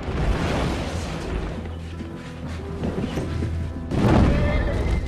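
Gas cylinders exploding in a burning stable: a rough, roaring fire rumble, then a sudden loud, deep boom near the end that spreads into a broad crashing burst.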